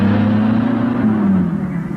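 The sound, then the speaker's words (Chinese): A car engine drives off in a hurry, giving a continuous loud low-to-mid roar with a slight revving swell and a small drop in pitch toward the end. “快开车，快开，快！”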